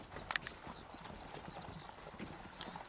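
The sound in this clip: Horse hooves clip-clop faintly and steadily along a road in a tabletop role-playing game scene, a soft continuous trot with a couple of sharper hoof strikes near the start.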